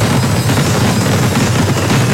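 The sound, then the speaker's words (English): Fireworks launching and exploding, heard as a loud, dense, continuous barrage of rapid cracks and booms with no pauses throughout. “3, 2, 1. Big Thunder Fireworks.”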